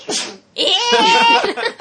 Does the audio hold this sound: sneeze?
yes